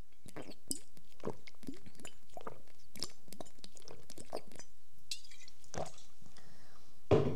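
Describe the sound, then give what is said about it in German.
A person drinking close to a microphone: soft sips and gulping swallows mixed with light glassy clinks, all fairly quiet, with a sharper knock near the end. “Aber ich will jetzt was trinken, Mensch.”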